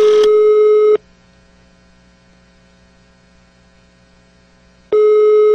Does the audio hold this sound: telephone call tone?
yes